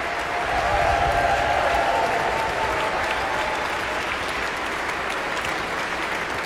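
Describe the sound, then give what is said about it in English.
A concert audience applauds an orchestra as the full ensemble stands and the conductor takes bows. The clapping is dense and sustained, with an even, unbroken roar at steady loudness from start to finish. “The full orchestra stands, receiving the appreciation of the audience.”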